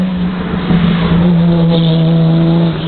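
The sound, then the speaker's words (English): A Jaguar car's engine roars loudly and steadily throughout, a sustained, droning note with strong layered harmonics and no voices. “The Jag's making a lot of noise as usual.”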